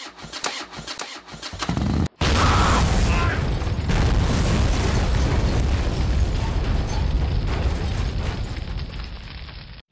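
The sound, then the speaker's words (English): A motorcycle explodes as it is started. A rough, sputtering engine crank runs for a couple of seconds, then a sudden loud blast gives way to a sustained, heavy roar that slowly tapers off. “Oh, what's going on? I heard an explosion.”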